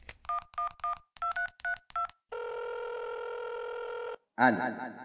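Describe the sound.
A telephone number being dialed: a quick series of short electronic keypad tones, then a long, steady ringing tone, after which a voice begins to speak.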